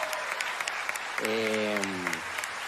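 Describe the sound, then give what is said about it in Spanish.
An audience applauds the musicians, including quena players, at a live concert with steady, moderate clapping throughout, while a voice sounds briefly over it partway through. “Primero, un aplauso, por favor, muy fuerte a Víctor Contreras y a Sergio Ramírez, que están en las quenas.”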